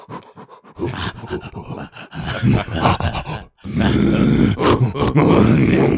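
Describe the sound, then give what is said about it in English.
A person imitates gorilla noises in a string of loud, rough grunts and groans, breathy and guttural, broken by a brief pause before a louder, more sustained burst. “But the gorilla noises.”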